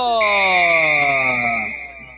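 A referee's whistle starts a Brazilian Série D football match with one long, shrill, steady blast that lasts about a second and a half before fading out.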